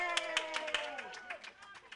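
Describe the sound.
Clapping from an audience for a performer at a happy-hour open mic, a scattered run of claps that thins out over two seconds, with voices over it.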